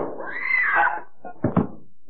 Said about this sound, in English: The doorknob turns slowly, then...